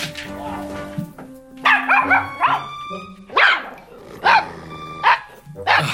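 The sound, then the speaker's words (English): Dogs bark in several sharp, loud bursts spaced roughly a second apart, some short and some drawn out, over a steady tonal musical backing; no one talks. “More dogs.”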